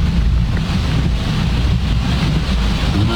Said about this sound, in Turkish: Abi öyle böyle yağmıyor. Şeye bak. Şuradan gelen suyun hızına baksana ya.